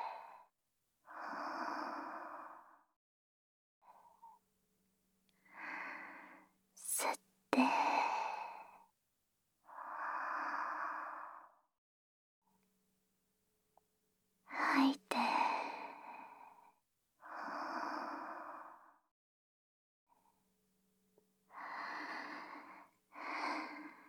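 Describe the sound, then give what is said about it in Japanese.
Deep breathing in and out during a massage: many slow, rhythmic, sighing breaths, each a soft airy swell separated by short pauses, with no talk over them. “ほら、吸って。吐いて。”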